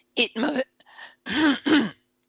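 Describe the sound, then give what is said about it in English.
Someone clears a tickle in the throat in a few rasping, voiced bursts with short gaps between them, loud and on its own. “I really apologize for this tickle in my throat.”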